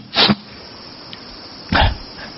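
A dog near an open door gives two short, breathy snorts or sniffs, separated by a pause of over a second, with only faint background sound between them.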